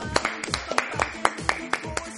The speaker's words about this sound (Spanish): Mae, ¿por qué ya no aplaudimos? Mae, vos sabes que... Digo, aplaudamos si querés.